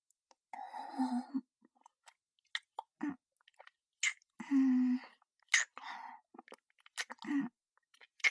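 A large mouthful of food being chewed up close, with many wet, squishy bites and smacks in an irregular rhythm. A few soft voiced hums break in, all quiet against near silence.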